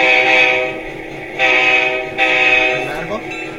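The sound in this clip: A train horn blows, heard from a DVD of freight, passenger, modern and vintage trains. It is a long, loud, chord-like blast that swells up twice more before it fades out near the end.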